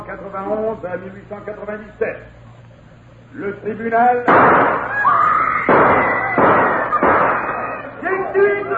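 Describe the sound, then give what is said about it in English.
A gunshot rings out in a courtroom during the Dreyfus trial. Calm speech comes first, then a loud, sharp burst and several more loud blasts amid turmoil. “Gunshots have thrown the courtroom into turmoil. Just what has happened, we hope to know in just a minute. After the shot, the voice shouted, I killed Dreyfus.”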